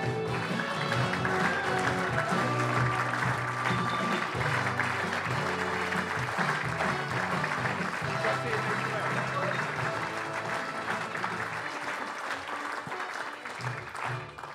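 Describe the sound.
Audience applause welcoming the host of an ITFC football preview show: steady, moderately quiet clapping from a crowd, with voices mixed in, gradually tapering toward the close.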